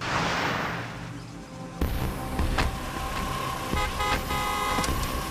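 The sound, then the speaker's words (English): A vehicle moves slowly during a police shootout with a steady broad engine rumble, several sharp cracks and a sustained horn-like tone. “Vehicle's moving very slowly. He's trying to escape.”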